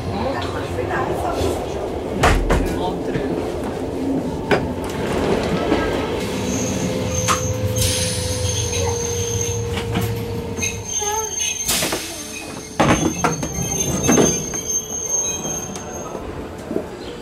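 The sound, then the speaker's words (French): A train pulling into Montreux railway station in Switzerland, with high metallic wheel squeals over rumbling, rattling carriages, continuous and loud, with brief clanks along the way. “Bon, alors là, je me trouve à la gare de Montreux. Je viens d'arriver.”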